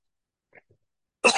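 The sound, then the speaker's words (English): One person coughs once: a short, sharp burst that comes at the end after near silence, preceded only by a couple of faint small noises. “I'm starting to cough, so I must be through.”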